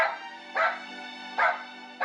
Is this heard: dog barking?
yes